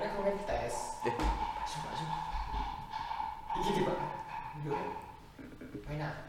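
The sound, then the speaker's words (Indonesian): Dog barks and yips come in a few short bursts, mixed in with people chatting over them. “anjing”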